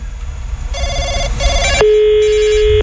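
An electronic telephone ringtone sounds for a prank call: two short warbling bursts, then one long steady tone held for about a second, loud and with no voices.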